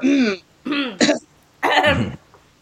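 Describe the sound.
A person clearing the throat in a few harsh, voiced bursts, fairly loud and with no other sound, with a short pause before a longer final clearing.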